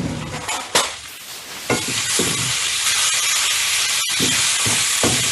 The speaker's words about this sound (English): So here I take the salt and I am going to mix it up.